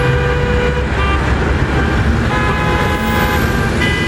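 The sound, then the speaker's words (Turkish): A car horn honks in several steady-pitched blasts over continuous road traffic and engine rumble. A choking driver sounds it while approaching motorcycle patrol police to call for help. “150-200 metrede zaten korna yaparak geliyormuş.”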